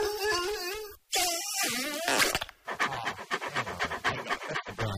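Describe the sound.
A dog panting hard, quick rhythmic breathy puffs repeating steadily through the second half, loud and with no talk.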